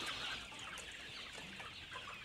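Crested green-egg-laying crossbreed chickens cluck and chirp softly at bedtime, a continuous, quiet, overlapping flock murmur with no voices.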